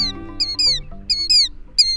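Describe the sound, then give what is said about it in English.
Shrill rhythmic cries of a killdeer plover: high, arching notes delivered in quick pairs that repeat at a regular pace, loud and clear above a soft low murmur. “The rhythmic cries of a killdeer are familiar across most of the country in spring and summer.”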